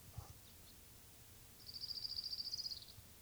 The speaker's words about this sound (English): May 13th, 1992, Orange Crown Warbler number 2.